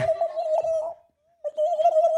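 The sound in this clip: A turkey gobbles in two loud warbling bursts of a steady, mid-pitched, wavering call, split by a short silent gap, with no voices.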